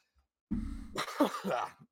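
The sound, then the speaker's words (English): Wet throat clearing from one person: a rough, phlegmy rasp followed by a few short, gravelly voiced pulses, heard alone in under two seconds. “Nope, that was a wet cough. That was a wet clear of the throat that just happened, not a dry cough.”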